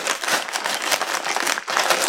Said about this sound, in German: Hier steht L-Shaped Quick Release Plate. Ich muss es leider auspacken.